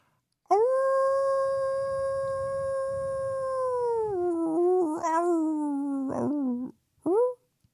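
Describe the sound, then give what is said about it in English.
A person howls like a wolf, voicing a long, loud, tonal howl that holds one pitch for several seconds. It then drops lower and wavers before breaking off, and a short final yelp follows. “Oh, this is a horrible howl.”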